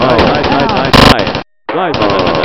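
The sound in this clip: Rapid automatic gunfire crackles in a dense, loud stream, swelling into an especially harsh burst partway through before cutting to a brief silence, after which the firing resumes with a voice-like cry mixed in.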